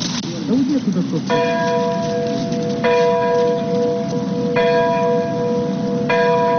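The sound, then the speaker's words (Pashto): Church bells ring early in the morning in Ukraine for the anniversary of the Chernobyl nuclear disaster: four clear, resonant strikes at slow, even intervals, each ringing on over a steady low murmur. “د پیښې د کلیزې په یاد په اوکراین کې سهار وختي زنګونه ووهل سول.”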